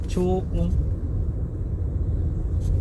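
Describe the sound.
Steady low rumble of a car descending a winding mountain pass road, quiet and even throughout, with a brief voice near the start.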